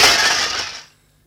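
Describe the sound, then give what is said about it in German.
Broken glass shards clink and crash as they are shaken out of a bucket. A bright, loud rush of tinkling glass lasts under a second, then dies away. “Da, auch ein Eimer mit den Scherben. Na los, nun schütteln doch aus.”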